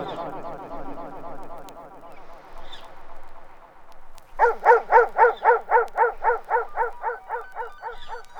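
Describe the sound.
Dog barks come in a quick, steady run of many loud, evenly spaced pulses in the second half, following a softer stretch of yipping and whimpering sounds.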